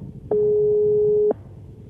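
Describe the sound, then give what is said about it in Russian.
A single steady telephone tone from a caller's phone with the hold button engaged, lasting about one second at a constant mid pitch, alone over faint line hiss. “У вас спрацьовує кнопка на телефоні удержання. Будь ласка, нажміть її, ви будете нас чути, а ми вас.”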